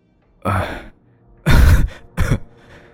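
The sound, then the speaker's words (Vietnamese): A man coughs violently after collapsing to the ground, three harsh, breathy bursts with short pauses between them, the middle burst the longest and loudest. “Ông thầy ngã xuống đất ho sặc sụa rồi nói thều thào”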